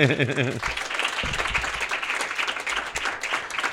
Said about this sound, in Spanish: Muchísimas gracias. Un aplauso a ellas,